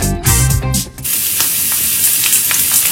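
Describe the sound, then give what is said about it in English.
A premium steak sizzles in a hot pan, giving a loud, steady, hissing fry with crackling spits throughout and a brief dip in the sizzle near the start. “Hear that? That's the sound of a premium steak sizzling to perfection.”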